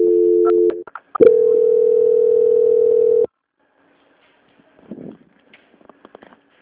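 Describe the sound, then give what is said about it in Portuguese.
Telephone line tones play while a call is transferred to a quality-control line. A steady tone breaks into a few clicks, then a longer unbroken tone of about two seconds follows. Near-silence with faint scattered clicks comes after. “Agora, eu vou transferir essa ligação para o controle de qualidade, que vai dar continuidade a essa contratação. Peço que a senhora continue na linha.”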